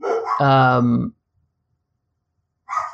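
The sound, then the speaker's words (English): Dogs barking in the background: one long, tonal bark lasts about a second, then silence follows, and a brief further sound comes at the very end. “sorry, my dogs are barking in the background.”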